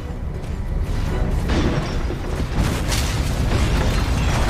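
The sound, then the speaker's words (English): Explosions in a video game as a unit attacks a Scorpion tank: loud, continuous booms and crashing bursts that layer into a dense rumble throughout. “We're gonna have Decker move and attack a Scorpion tank.”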